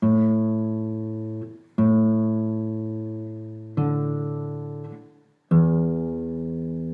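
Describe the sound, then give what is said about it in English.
A string instrument plays four ringing notes on its open strings: the A string twice, then the D string, then the E string. Each note is plucked, sustains and decays before the next, with no voices. “So you're going to play the string, the A string twice, because you see the A's written twice. Then you're going to play the D string once, and then you're going to play the E string once.”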